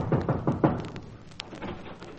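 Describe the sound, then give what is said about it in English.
Someone knocks on an office door with a quick series of dull raps. The knocks are followed by a quieter stretch with faint shuffling. “I went up to an office one day and knocked at the door.”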